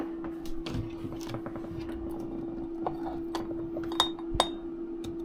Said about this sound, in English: I'm gonna get some fresh avocado oil in there. First thing. Unopened bottle.